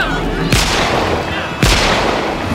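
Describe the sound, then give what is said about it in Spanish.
Gunshots fired into the air beside a ship's lifeboats as a crowd pushes to board: two sharp, loud cracks about a second apart over dense, constant background noise. “dispara al aire”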